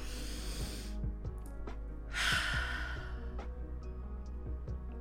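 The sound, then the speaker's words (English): A single deep breath let out as a breathy sigh, one soft rushing burst midway through, over a faint low hum. “let's take a deep breath.”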